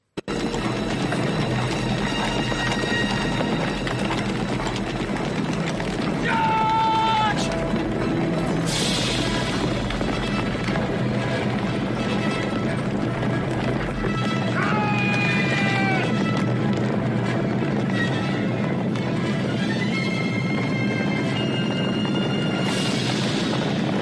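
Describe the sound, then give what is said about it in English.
Galloping horses in a reenacted cavalry charge make a continuous loud rumble of hooves. Several horse whinnies rise out of it with falling pitch, and voices can be heard in the mix. “Here's a short scene, a reenactment of this cavalry charge, and I've selected a scene that doesn't have too much shooting in it for the children.”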